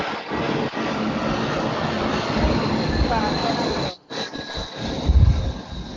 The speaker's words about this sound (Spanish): Ahí pasó el avión. Sí, pasó el avión.